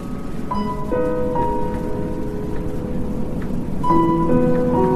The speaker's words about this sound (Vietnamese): Và lúc này, trời bắt đầu đổ mưa, đất trời chuyển cơn dần dữ.